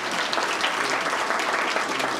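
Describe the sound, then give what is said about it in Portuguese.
Applause for councillors at a meeting: dense, steady clapping from a crowd, even and sustained throughout without a break. “Uma salva de palmas a todos os vereadores aí.”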